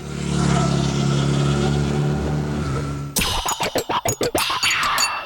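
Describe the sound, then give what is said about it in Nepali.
A Hero Xpulse 200 adventure motorcycle with an 18.4 hp engine: a loud steady engine drone runs first, then gives way to many rapid rhythmic revving pulses. “Hero expert छु of एडभेन्चरमा रमाउनेको पहिलो रोचाइको bike जसमा छ eighteen point four HP engine dual purpose tyre र rear मोनोसक प्रविधि hero XPulse two hundred”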